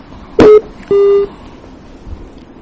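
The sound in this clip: Electronic beeping on a telephone line as a call cuts off: a short burst, then a longer steady mid-pitched tone, with no talk.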